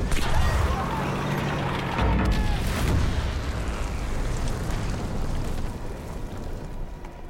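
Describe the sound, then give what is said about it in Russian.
A tank runs over and crushes an enemy artillery gun: a dense, continuous rumbling roar with heavy crunching impacts, loudest early on and easing slightly toward the end. “Танк наезжает на орудие и давит его.”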